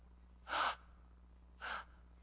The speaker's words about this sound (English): And I couldn't breathe. I just inhaled. I went,